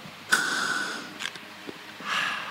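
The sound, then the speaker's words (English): Someone with asthma takes a deep inhale while using an inhaler: a sharp, hissing intake of breath drawn out under a second, two quick soft sniffs, then another breathy draw at the end. No talk is heard. “And inhale.”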